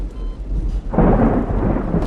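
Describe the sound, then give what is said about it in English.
Thunder in a lightning storm, heard from a dark hospital room. It starts quiet and low, then a loud, broad rumble breaks in about halfway and rolls on to the end. “In a dark hospital room, Light lies unconscious. Lightning flashes around the room as the man with the briefcase sets the death note carefully on Light's chest.”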